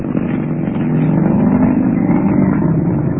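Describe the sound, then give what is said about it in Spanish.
Engine roar of a modern sports car accelerating at speed through London city streets, a dense, steady rushing drone that swells slightly in loudness and then holds. “prefirió quedarse mudo al ver a Calimán imprimir velocidad al moderno auto Sport.”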